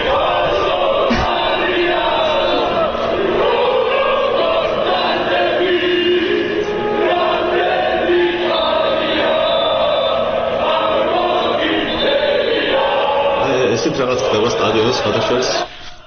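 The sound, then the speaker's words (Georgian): Dinamo Tbilisi football fans sing together in the stadium stands. The loud, massed chant has a shifting melody and runs continuously before cutting off abruptly at the very end. “თბილისის დინამოს გულშემატკივრები ეს მღერიან დინამოს ტრიბუნაზე”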